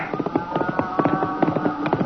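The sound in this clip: Galloping hoofbeats of a rider's horse charging up in an audio drama, a quick, steady clip-clop rhythm of many hoof strikes running through the whole stretch over a faint sustained tone.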